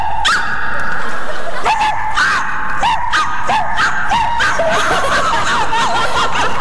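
A man imitates a dog barking, letting out a quick run of many short, yappy barks with a rising-and-falling bark shape, loud and steady over a constant background.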